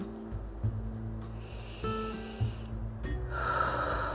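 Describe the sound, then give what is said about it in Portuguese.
A deep breath drawn in through the nose for a self-hypnosis exercise: a soft, hissing inhale that swells near the end over a quiet, steady tonal background. “faça uma respiração mais profunda. Inspire profundamente pelo nariz, enchendo bem os pulmões de ar.”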